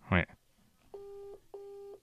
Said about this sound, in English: I'll ring her on my WhatsApp. I'm not incurring those international dialing charges. I'll ring her on my WhatsApp and,